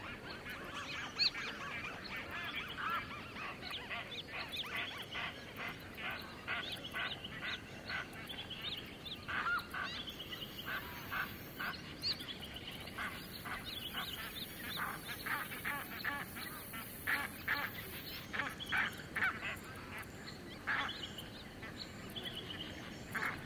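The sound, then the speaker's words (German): Geese honk at a lagoon among cranes and many other waterbirds, beside muddy ground. Many overlapping nasal honks and calls run steadily throughout, faint and busy, with no talk. “eine Lagune mit Gänsen, Kranichen und vielen anderen Wasservögeln.”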